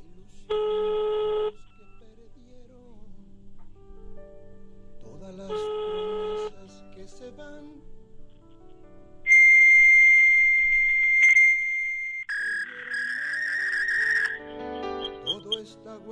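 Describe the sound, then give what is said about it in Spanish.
A telephone number is dialed and the line rings out with two short, evenly spaced bursts of ringing tone. A few seconds later a longer, louder stretch of steady electronic tones follows, shifting in pitch near the end, over a low hum. “lo que ustedes escuchaban era, marcábamos un número que estamos cansados desde el día de ayer de marcar, sí que nos atienda.”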